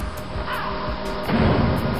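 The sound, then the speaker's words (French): Crows cawing in a few harsh, raspy calls over a steady noisy background, the sound growing louder in the last part. “Des corbeaux.”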